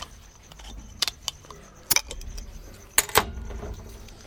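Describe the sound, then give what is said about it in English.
A bottle of alder-wood-smoked beer is cracked open: faint handling rustle, then a few sharp clicks and short crackling bursts, the strongest two close together near the end. “And they use alder wood to smoke the beer. Let's just crack it. Sweet. All right, crack it.”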